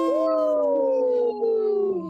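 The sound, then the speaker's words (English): People imitate a wolf howl with one long, drawn-out vocal howl that rises briefly, then slowly sinks in pitch. It breaks once near the end before trailing off. “let's give a big howl. Howl!”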